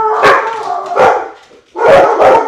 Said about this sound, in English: That's the dog saying good morning.